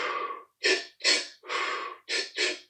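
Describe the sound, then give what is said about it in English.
Powerful breathwork breaths for stress relief, a run of six forceful, breathy rushes of air in quick succession, sharp inhales and a longer exhale, with brief pauses between them and no talk. “what I want to do is to inhale, inhale again powerfully, and then exhale.”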